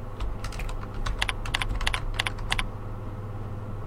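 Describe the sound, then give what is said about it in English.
Typing on a computer keyboard while a name is entered into a form field: a quick, uneven run of crisp keystroke clicks over a steady low hum, then the keys stop for the last second. “So in the name, I'm going to type calendar.”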